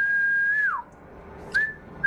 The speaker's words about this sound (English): So maybe the whistle goes off